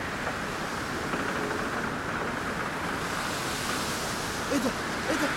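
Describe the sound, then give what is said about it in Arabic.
High sea waves make a continuous, broad rushing roar that stays even throughout, with a few faint higher blips near the end. “بطرس بيغرق. بطرس ده بيغرق، خلي بالك الموج عالي قوي، هتغرق.”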